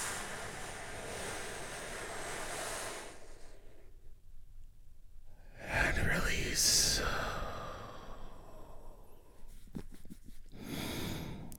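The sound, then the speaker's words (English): A slow, deep breath drawn for relaxation, a long, airy rush of breath that swells and then eases, amid soft background sound. “Take a big, deep healing breath with me right now. Here we go.”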